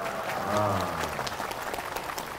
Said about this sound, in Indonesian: Barulah tepuk tangan.